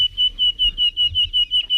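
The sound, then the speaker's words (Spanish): A nightingale sings a rapid series of high, pure whistled notes, pulsing evenly at nearly the same pitch, clear and fairly loud. “Un ruiseñor, ha dicho. Un ruiseñor,”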